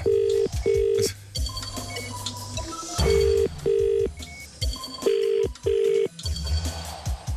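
A telephone number being dialled on a keypad: six short, loud tone beeps falling in three pairs, with other electronic tones and noises between them.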